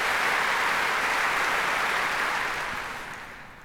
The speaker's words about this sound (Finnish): Näin kaikki esiintyjät saivat aplodit ja hurraahuudot yleisöltä.